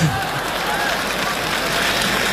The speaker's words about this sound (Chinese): 谢谢大家掌声的鼓励